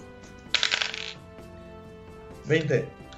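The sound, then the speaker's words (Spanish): Hundred-sided die rolling during a tabletop game: a half-second burst of quick, dense rattling clicks, then a quieter stretch and a second short burst. “voy a sacar un D100 y a ver qué me sale”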